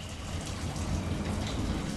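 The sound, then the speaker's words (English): Slow trickle of water running through a wide storm drain under city streets in the Libertad neighborhood of Culiacan, Sinaloa, heard as a steady, even hiss of flowing water with no breaks. “In the Libertad neighborhood in Culiacan, Sinaloa, a slow trickle of water runs through a wide storm drain running under the city streets.”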